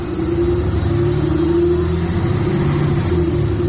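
A car arriving, its engine a loud, steady low rumble with a constant hum that holds evenly throughout, with no other sounds standing out.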